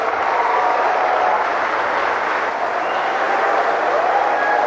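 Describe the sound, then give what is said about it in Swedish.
Steady, dense applause from the audience at a BRICS business forum as Russia's president is welcomed to speak. The clapping holds at an even level for the whole stretch, with no break. “Ja, här har vi en glad publik vad det verkar.”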